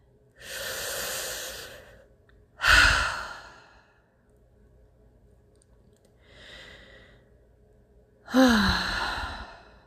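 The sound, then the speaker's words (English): Slow, deep belly breaths taken during a guided breathing exercise: long, airy inhales and sighing exhales separated by quiet pauses, mostly strong, with one softer breath. “So let's take some nice deep breaths. We're going to fill our belly.”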